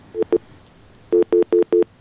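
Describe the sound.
Telephone line tone after a caller's call drops: two short beeps, a pause, then four evenly spaced, longer mid-pitched tones in a steady rhythm, heard alone.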